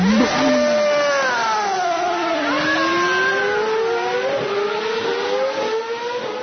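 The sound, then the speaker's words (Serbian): Formula 1 race car engines revving at the Belgian Grand Prix at Spa-Francorchamps in wet qualifying, a loud, continuous high whine that drops in pitch early, then climbs and holds near the top. “Spremamo motore. Brum, brum, brum, brum.”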